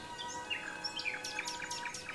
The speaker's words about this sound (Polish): około Ukrainy, to znowu przy biskupim domku śpiew słowika. Tyle bzów i tyle słowików, że wierzyć się nie chce.